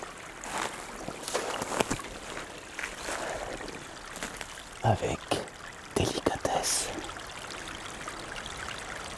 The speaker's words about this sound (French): le ruissellement de l'eau.